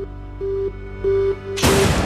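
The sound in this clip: A sudden loud gunshot blast erupts near the end, cutting through a steady low hum that carries a faint repeating tone.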